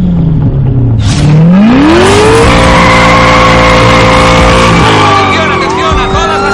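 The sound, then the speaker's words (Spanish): In an action-film chase, a car at full speed dodges police patrol cars and drives against traffic. Its engine roars loudly and its pitch climbs as it accelerates, with tires squealing and a sharp burst near the start. “El coche está con la cinta a toda velocidad. Esquiva a varios coches patrulla, entra en una carretera y circula en sentido contrario.”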